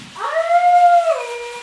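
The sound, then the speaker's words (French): A wolf howls in the distance, one sustained howl that rises at the start, holds a steady pitch, then slides lower at the end, heard alone. “Au loin, on entend un loup qui hurle”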